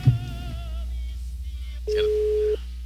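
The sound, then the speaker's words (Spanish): A telephone voicemail tone on a phone line: after a brief mixed burst, one steady mid-pitched beep holds for about two-thirds of a second, then cuts off. “La llamada se cobrará al terminar los tonos siguientes.”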